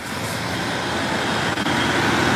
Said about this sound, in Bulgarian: От тук, от Кресна, виждате зад мен, автомобилите продължават да паузят буквално през вътрешността на града.